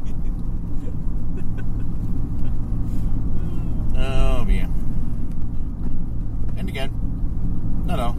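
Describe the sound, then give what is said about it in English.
Steady low engine hum from a car idling in a driveway, a deep even rumble that holds through the whole clip while people talk over it. “Turning it on and idling the driveway.”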